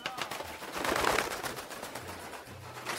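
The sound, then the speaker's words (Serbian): Pigeons of local Sombor breeds flying over the town of Sombor, soft pigeon sounds within a broad, continuous rustling wash at moderate level. “Golubovi eto lete Somborom”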